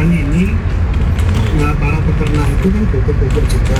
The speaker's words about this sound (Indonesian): Banyak truk yang antri nih ya. Truk-truk kawan yang rata-rata yang antri nih.